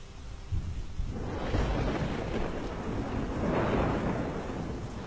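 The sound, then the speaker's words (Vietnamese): Thunder from a lightning strike in a fierce rainstorm: after a quiet first second a low, sustained rumble builds up and swells again before easing, with a steady noisy wash underneath. “Ngoài trời lúc này cơn mưa lại càng thêm dữ dội. Đột nhiên một tia sét từ trên tầng không giáng thẳng xuống.”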